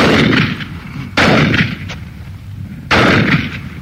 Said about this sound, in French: Ce sont pas 4 méchants coups de fusil qui ont réveillé tous les canards de la région